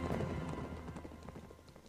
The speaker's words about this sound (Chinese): 马蹄声渐远